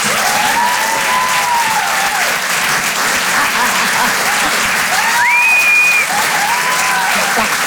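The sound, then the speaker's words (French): Comedy club audience at the Apollo Théâtre in Paris applauds a comedian with sustained, dense, loud clapping. A shrill whistle cuts through the clapping near the end. “Faites du bruit, s'il vous plaît. Merci d'encourager Karine Dubernet.”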